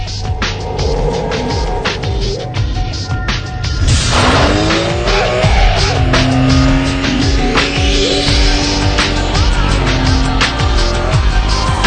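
Race car engines roar loudly and continuously from a racing video game, with rising pitch sweeps as they rev and sharp tire squeal as cars skid.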